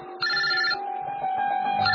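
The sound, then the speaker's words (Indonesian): Telephone ringing with a call from an unknown number: a continuous electronic ringtone with bright, buzzy overtones that pulse in a steady, repeating pattern, fairly loud. “Tiba-tiba aku mendapatkan sebuah telepon dari nomor yang tidak dikenal.”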